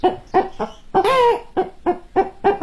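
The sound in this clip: A human voice imitates an old hen clucking: a steady run of about eight short, nasal clucks, with one longer drawn-out squawk near the start.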